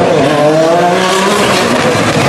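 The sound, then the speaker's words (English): A turbocharged car accelerating hard at high RPM: a loud, sustained engine roar with a dense, buzzing tone that holds steady throughout, with no talk. “Yeah, that turbo kicks so goddamn hard when it gets above like 6,000 RPM. The turbo just goes berserk.”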